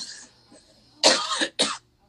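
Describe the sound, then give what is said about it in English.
A couple of harsh, wet coughs from allergies: one longer burst followed by a shorter one, loud against near silence, after a faint throat sound. “It's a productive cough, you guys. Welcome to allergies in Texas, okay?”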